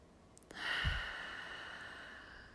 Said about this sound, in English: If that means a few deep breaths that are loud, that's fine.